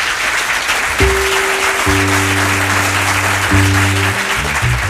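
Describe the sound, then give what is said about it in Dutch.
Applause from a studio audience at the Jazzhuis Montmartre in Copenhagen after a jazz performance: a dense, steady patter of clapping over sustained low instrumental tones. “applaus in de studio. Ik denk dat er wat mensen uitgenodigd zijn in het jazzhuis Montmartre, Kopenhagen, Denemarken.”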